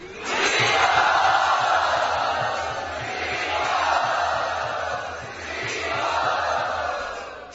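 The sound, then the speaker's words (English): A temple crowd of Hare Krishna devotees cheers and roars a grand welcome for a visiting guest, a loud, sustained mass of voices that swells in waves across the whole stretch. “Let us give a very grand welcome to Gopal Bhatt Prabhu.”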